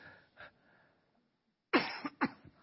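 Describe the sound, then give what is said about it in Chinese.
Coughing: one faint cough, a pause, then a louder burst of a few harsh coughs in quick succession. “对不起，有点想咳嗽。”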